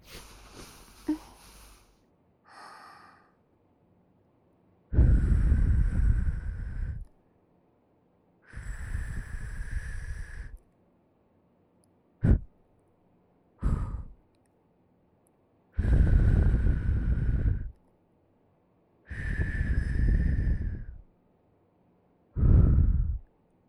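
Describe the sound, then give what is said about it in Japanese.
Gentle breaths are blown into the ear as soft, airy whooshes, several longer puffs separated by silence, mixed with a few shorter breaths and one brief click. “お掃除する前にお耳の中を軽くふぅふぅとしていきますね。”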